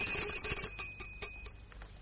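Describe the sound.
A bell rings to summon a servant in a baron's household, a fast trill of many quick strokes over a steady high ringing tone, with no talk.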